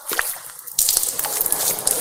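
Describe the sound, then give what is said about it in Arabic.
Tap water running into cupped hands while washing the face in ritual ablution: quiet dripping and spatter at first, then a sudden jump to louder, continuous splashing with irregular drips. No talk. “نفتح الماء قليلا، نملأ اليدين بالماء ثم”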